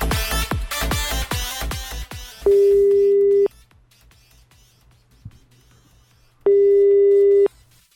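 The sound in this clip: Telephone call tones on a recorded call: two steady, sustained ringing tones of about a second each, separated by a long pause, with a low continuous hum underneath and a rapid run of short sounds at the start.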